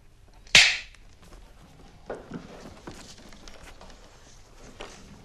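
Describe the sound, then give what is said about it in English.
A bulldog clip snaps shut with one sharp, bright metallic crack that stands out loudly against the near-silence. Only faint low background noise follows. “squeezes the bulldog clip open, holding it next to Danny's ear. He suddenly lets it snap shut.”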